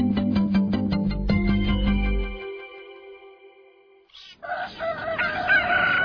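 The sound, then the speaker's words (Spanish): A rooster crows loudly, a wavering, sustained call that comes in after several seconds of steady tonal notes that fade out, with no voices present. “¿qué no escuchas el gallo?”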